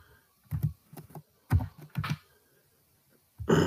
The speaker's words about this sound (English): I typed his name in there.